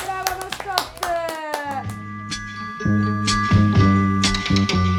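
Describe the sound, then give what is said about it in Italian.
Clapping welcomes a mascot, steady claps layered over a bright tonal jingle that runs the whole five seconds, growing fuller and louder in the second half. “Un applauso alla mascotte!”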